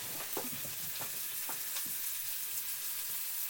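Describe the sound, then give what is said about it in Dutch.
A whole pigeon sears legs-up in a very hot frying pan over high heat, giving a steady loud sizzling hiss throughout, with a few faint clicks and pops in the first half. “je hoort de pan lekker heet zijn.”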